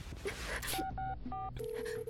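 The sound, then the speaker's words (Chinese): A telephone keypad being dialed: a quick run of short beeping touch tones followed by a longer steady tone, fairly quiet. “对，电话，对，电话。”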